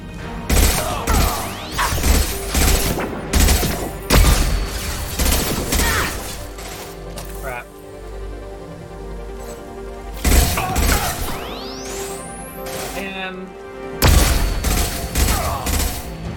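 Video game gunfire: loud, dense volleys of shots in repeated bursts separated by brief lulls, with crashing impacts mixed in over about sixteen seconds.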